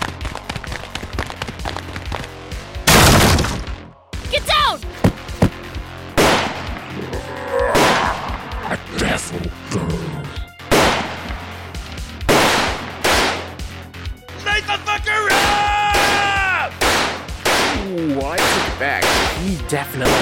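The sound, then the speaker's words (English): Gunfire erupts in a frantic chase, with a few loud, sharp cracks spread across the stretch. Shouting voices and other dramatic effects fill the gaps between shots. “stop firing. You're going to hit me”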